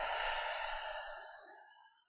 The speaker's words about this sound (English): let's take one more deep breath in and deep breath out.